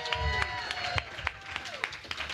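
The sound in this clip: A comedy show audience applauds a comedian as he is introduced, with a dense, steady patter of clapping and a few sharper claps standing out.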